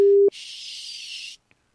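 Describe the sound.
A telephone tone sounds as one short, steady, low beep, followed by about a second of hiss on the line and then silence.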